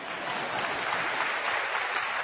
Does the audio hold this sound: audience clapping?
yes